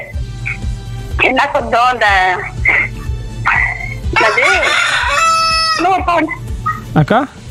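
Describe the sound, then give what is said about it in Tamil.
A rooster crowing, played in a sound-guessing game, with several harmonic crows standing out over a steady low hum. “குயில் இல்லக்கா, சேவல் கா.”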